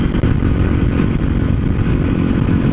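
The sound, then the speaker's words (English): A motorcycle engine roars loudly and steadily while the bike does a wheelie, with a rough, clattering, mid-pitched drone and no clear rise or fall. “That is actually the first time that I've wheelied this bike.”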